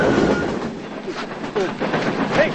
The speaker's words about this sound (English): then watches the silver freight car speed past.